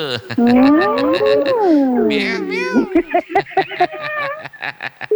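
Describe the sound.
A cat meows in long, wavering, drawn-out cries that rise and fall in pitch, then breaks into a quick run of many short, repeated meows.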